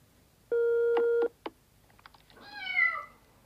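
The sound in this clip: A cat meows into a telephone, preceded by a steady electronic phone tone and a short beep. The meow then rises in a soft, wavering cry over the quiet line.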